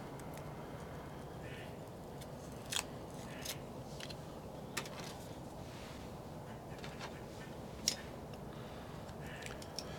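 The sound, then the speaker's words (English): Faint crisp snips of a cutter clipping a Drew Estate Blackened M81 Robusto cigar: a few sharp, quiet clicks spaced apart over a steady low background hiss. “So, let me go ahead and take this footband off and clip it, and let's check the draw.”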